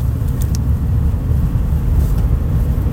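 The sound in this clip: A car's rear axle makes noise while it is driven, heard as a loud, steady low rumble and drone that continues throughout with little change.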